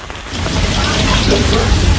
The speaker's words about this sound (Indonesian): karena hujan juga belum reda